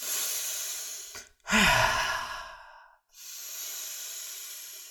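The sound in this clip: Deep, energetic breaths are taken during a breathing exercise: a long airy breath, then a loud, forceful sighing exhale that fades, followed by another steady rushing breath, with no talking.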